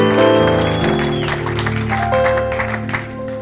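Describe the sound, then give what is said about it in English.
A church audience claps to welcome visitors, a steady wash of applause blended with sustained musical tones that hold and shift throughout. “I want to welcome all of our visitors that are with us today. Let's give our visitors a hand.”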